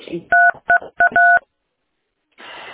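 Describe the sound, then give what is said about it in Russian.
Telephone keypad tones from presses on a phone's touchscreen during a call: four short, steady two-note beeps in quick, uneven succession, followed by silence and then faint noise. “На экран прямо нажимаете один тик-тик-тик-тик, даже не слышу вас.”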